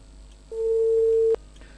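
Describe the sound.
A telephone tone sounds after a caller's line is cut off on a call-in phone line: one steady, mid-pitched beep lasting under a second, alone over a faint low hum.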